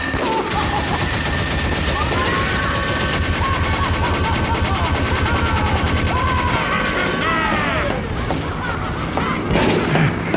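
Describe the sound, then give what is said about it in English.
Video game gunfire from a 2007 shooting game: a dense, continuous stream of rapid shots over game music, loud throughout, with a burst of heavier crashes near the end. “So this is guns.”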